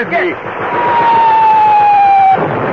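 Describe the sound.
Belt-fed machine gun fire in a wartime battle with German troops: a loud, steady rapid rattle that runs for the whole clip, with a sustained high whine above it.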